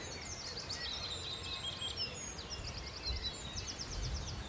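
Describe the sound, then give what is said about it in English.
Willow warbler song with a wood warbler singing in the distance: repeated high, thin phrases and quick trills over a steady low background rumble. “There's a willow warbler, and there's the wood warbler in the distance.”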